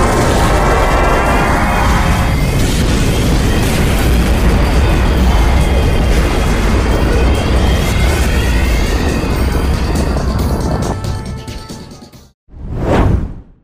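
A spaceship's jump drive engages in a science-fiction drama: a loud, sustained roaring whoosh with deep rumble holds for about twelve seconds, then fades out, and after a brief gap a short swelling whoosh rises and falls.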